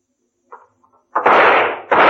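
Gunshots in a radio drama: two loud, broad blasts fire in quick succession after a moment of near silence, with only faint small sounds before them.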